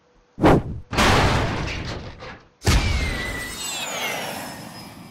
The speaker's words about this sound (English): At exactly the same time as the missile was launched